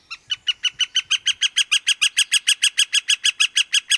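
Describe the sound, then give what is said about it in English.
A northern flicker calls in a long, rapid, steady run of bright, sharp notes that grow louder over the first second and then hold strong and regular to the end, with no other sounds. “take a deep breath and immerse yourself in the soothing sounds of this northern flicker.”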